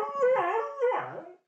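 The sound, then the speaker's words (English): A happy dog howls in two long, wavering, tuneful phrases that bend up and down in pitch, the second ending lower. A short, sharp sound follows after a brief pause. “That's my dog, it. Muddy Waters. He's howling. He's happy.”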